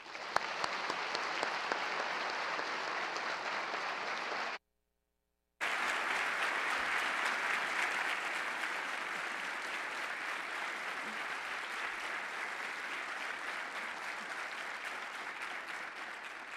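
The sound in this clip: Audience applause welcomes scientist Rosemary Grant at Cornell before an inaugural lecture: loud, dense, steady clapping that breaks off for about a second, then resumes just as full and carries on evenly to the end.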